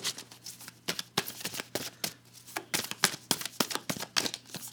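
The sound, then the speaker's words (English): Tarot cards are shuffled in quick riffling bursts, many crisp papery snaps following one another in an uneven rhythm at low volume. “Okay, uh, let me pull you a card.”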